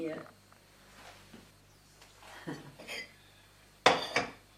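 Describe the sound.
Ceramic plates clinking as they are handled, with a few soft knocks followed by two sharper clatters near the end, while people talk quietly.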